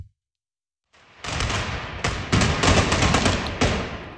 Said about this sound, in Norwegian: Her hører vi boliviansk politi som skyter tåregass mot demonstranter som legger på sprang i hovedstaden La Paz.